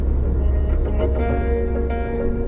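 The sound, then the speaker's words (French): Steady low rumble of a car cruising on a motorway out of Paris toward Normandy, a continuous road and engine drone with no clear changes. “Je quitte Paris et roule en direction de la Normandie”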